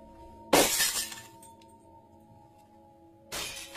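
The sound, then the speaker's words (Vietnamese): Glass shattering under a hard blow from a stick: a sharp crash with scattering fragments, then a quieter stretch over a steady low hum, and a second crash at the end. “Tiếng đổ vỡ loảng xoảng vang lên.”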